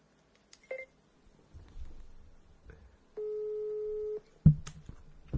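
Telephone dialing tones while calling someone on a mobile phone: a few short, faint beeps, then one steady tone of about a second, ending in a louder thump.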